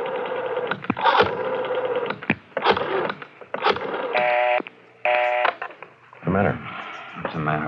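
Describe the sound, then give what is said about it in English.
Telephone dialing: short runs of steady electronic tones, with a few distinct tone bursts standing out between stretches of voices and other sound. “But I better try that call. Yeah, well, dial 9 first.”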